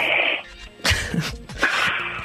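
A person imitates snoring through the nose, making a few breathy, rasping snorts in short bursts. No talk is heard between them.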